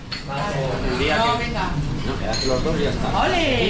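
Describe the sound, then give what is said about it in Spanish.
Morning bustle in a cafe in Logroño: dishes and cutlery clink now and then beneath continuous chatter from several people. “Comienzo del día en una cafetería de Logroño.”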